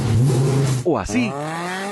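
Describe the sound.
Car engine revving through a sports exhaust: a loud, steady engine drone breaks into one sharp rev that climbs and then settles back to a rumbling idle, while a voice speaks briefly over it.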